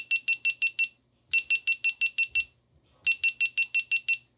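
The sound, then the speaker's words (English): GoPro camera power-off sound: three separate bursts of rapid, evenly spaced high electronic beeps, each group a quick string of six to eight chirps, with short silent gaps between. “The sound when you turn the GoPro off, that is the sound that you are hearing here.”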